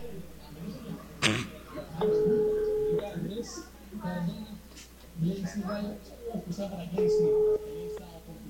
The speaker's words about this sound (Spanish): La estamos llamando, vamos a ver.